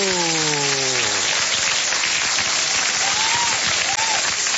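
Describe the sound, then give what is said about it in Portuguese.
Applause for birthday celebrants: a dense, loud, sustained clapping from a crowd, opening under a drawn-out vocal cheer that falls in pitch. “faltou aqueles aplausos para a gente comemorar juntamente com os aniversariantes esta data.”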